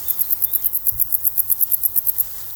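A male cricket sings a ticking song of many rapid, evenly spaced, high-pitched chirps in a steady rhythm, clear and alone with no voices.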